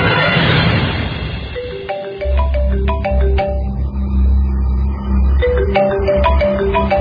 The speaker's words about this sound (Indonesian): ada suara telepon masuk dari handphoneku. Aku ambil handphoneku dan kulihat sebuah nomor tidak dikenal.